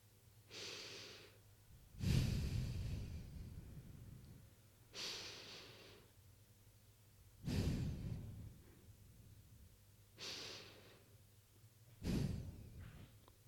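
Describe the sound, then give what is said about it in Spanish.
Three slow, deep breaths during a guided breathing exercise, each a quiet hissing inhale followed by a heavier, rushing exhale, with pauses between them. “tómate unos minutos para respirar y conectar con tu cuerpo.”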